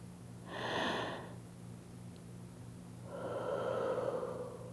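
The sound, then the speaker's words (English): Deep, slow breathing: one long airy breath in, a short pause, then a longer, softer breath out, with no talk. “One breath in. One breath out.”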